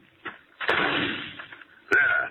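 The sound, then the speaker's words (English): Rifle shots fired over a back plot at pests: a few sharp, loud cracks, each followed by a rumbling, fading tail, with a faint knock before the first. “All at once I heard a shot, and there stood George blazing away over the plot in back with a rifle.”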